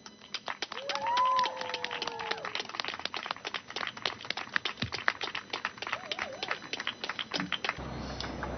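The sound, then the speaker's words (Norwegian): Applause for the next speaker, from the Norwegian Disability Association's youth wing, as they come up on stage: dense, steady clapping from a crowd that continues for several seconds, then stops abruptly. “Dere, gi en stor applaus dere, til vår neste eh, appellant”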